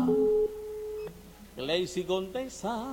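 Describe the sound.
A telephone ringing tone sounds while someone calls a contest winner: one steady, even tone holds for about a second, then stops as a voice begins talking.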